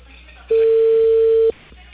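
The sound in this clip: A single long telephone ring tone from a call going unanswered, lasting about a second at one loud, steady pitch, with faint background noise before and after.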